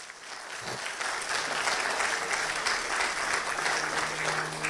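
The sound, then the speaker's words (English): A church audience applauds, a dense, steady wash of clapping hands that starts quickly and holds at an even, fairly loud level throughout. “Put your hands together for Jesus today.”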